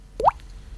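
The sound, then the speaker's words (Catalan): A water drop sound effect: a single bright plop with a quick upward sweep in pitch, standing alone over a faint low background hum. “No, aquí no caldria l'efecte de la gota d'aigua.”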